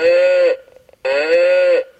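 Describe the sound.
An ox lows twice. Each call is a long, loud, steady tone, and the two are separated by a short near-silent gap.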